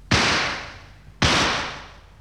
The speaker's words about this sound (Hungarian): Jelzőlövést adok a lentieknek.